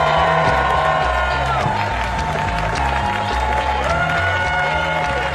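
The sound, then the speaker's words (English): Clapping and cheering from a stand-up comedy audience welcoming a comedian to the stage, a loud, dense and unbroken wash of applause with whoops mixed in. “thank you so much for clapping and yelling because this next comedian deserves it. Please give a warm welcome to the winner of the Cabo Comedy Fest, Mr. Ben Morrison!”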